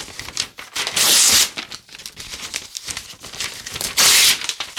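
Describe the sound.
White paper is crumpled in a continuous crinkling and crackling, with two louder, sharper bursts, one near the start and one near the end, and no talk.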